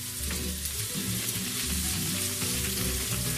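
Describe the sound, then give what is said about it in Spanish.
Potato pieces fry in a pan with bay leaf, saffron, sweet paprika and cumin, stirred now and then. A steady, soft sizzling hiss runs throughout with no voices. “Pondremos la patata, y esperaremos a que se haga un poco moviéndola durante un par de minutos.”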